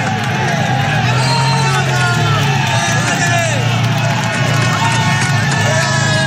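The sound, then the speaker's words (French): Tens of thousands of spectators on the Alpe d'Huez climb cheer on the cyclists, and some run beside the riders. The roar of the crowd is loud and continuous, and a commentator talks over it. “Des dizaines de milliers de spectateurs qui ont pris place ici avec quelques idiots qui courent à côté des coureurs.”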